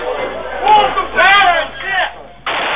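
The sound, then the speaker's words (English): Guns fired into the air as a party breaks up: several rough, booming bursts in quick succession, mixed with shouting voices, muffled and narrow in tone. “Just shooting guns into the air.”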